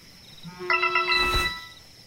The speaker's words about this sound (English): he takes out his phone and he looks at who's calling. It's not a call, it's just a text message from Emily.